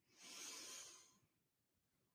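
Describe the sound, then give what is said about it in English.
A slow, deep breath in, a soft airy hiss lasting about a second that gradually fades, followed by near silence and a short sharp sound at the very end. “Deep breath in. And sigh it out. And one more deep breath in.”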